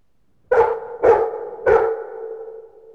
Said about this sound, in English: D, dog. It's a dog. Dog. D, dog.